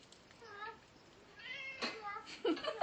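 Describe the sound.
A house cat makes faint grumbling meows: a couple of short, wavering calls spaced apart, soft and low in level, followed by brief rustling noises.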